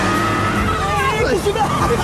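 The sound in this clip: A sports car's engine as it drives, a low rumbling drone with shifting tones, heard under overlapping voices.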